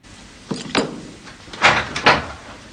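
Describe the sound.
A door opens as someone enters a room, giving a few muffled clunks and scraping knocks of moderate loudness with no voices.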